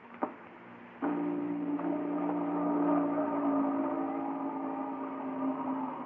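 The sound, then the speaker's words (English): An electrical drone from a partially activated machine, like motors warming up or a short circuit. A sharp click comes first, then about a second in a steady, layered humming buzz starts and holds, wavering slightly. “Nothing's going on back there. Sounds like motors warming up. Hey, that sounds like a short circuit somewhere.”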